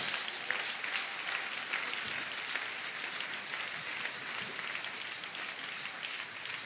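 An audience applauds during a church service, a steady, rather soft patter of many hands clapping at once, continuous and even throughout, with a rain-like texture.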